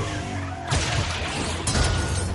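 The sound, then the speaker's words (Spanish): A harpoon smashes into the headlight of a Bentley during a car chase in the action film Fast & Furious 8. Two loud crashing bursts of shattering impact break over a steady low engine rumble. “El Bentley de Roman clava otro en un faro delantero.”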